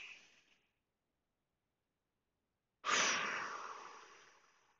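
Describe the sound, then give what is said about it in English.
Slow, deep breathing during a guided breathing exercise: one long airy breath tails off, silence follows, then another deep breath starts abruptly and fades slowly. “And with that, I'm going to breathe, and I invite you to do that with me right now. Just breathe in and breathe out.”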